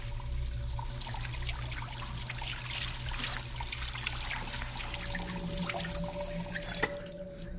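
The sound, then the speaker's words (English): Water runs into a sink as a hand is rinsed of dried blood: a steady trickle with scattered drips and light splashes over a low, constant hum. “bows his head as he makes his way to the sink. He rinses dried blood from his left hand”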